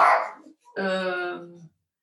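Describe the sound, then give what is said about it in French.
A dog barks with one short, rough, noisy burst, then after a brief pause gives a longer, steady, tonal whine lasting about a second, fairly loud and with no talk. “C'est mon chien.”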